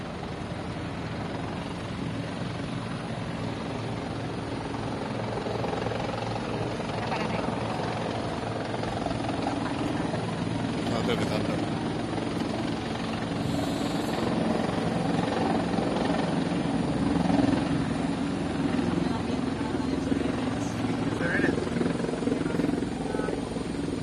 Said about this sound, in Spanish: bueno, acaba un helicóptero, pero viene otro, como pueden observar.